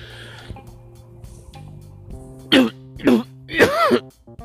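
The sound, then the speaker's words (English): A short allergy-driven cough attack: three loud, harsh, throaty coughs close together, the last one drawn out and voiced, after a quiet lead-in. “every so often I get a cough attack, and what you just heard is it, is that it's going to happen again.”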